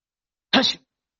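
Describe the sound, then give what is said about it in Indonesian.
A voice imitates a single sneeze during an Islamic religious lecture: one short, sharp, forceful burst, heard alone with silence around it. “Dan hiduplah Adam dengan ditandai dengan apa? Bersin.”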